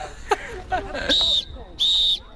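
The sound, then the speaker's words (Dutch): Two shrill referee whistle blasts at a recreational korfball tournament, each a steady high tone of about a third of a second with a short gap between, preceded by a few soft background sounds. “een fluitje hebben ze nog wel, maar daar houdt het dan ook mee op bij dit toernooi in Apeldoorn”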